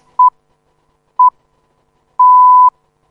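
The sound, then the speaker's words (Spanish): A radio time signal marks the half hour with two short, pure beeps about a second apart, then a longer final tone at the same pitch. The beeps are loud and stand alone against silence. “Y aquí está el top del segundo, marcando las seis y media de la mañana, las diez y media hora central europea.”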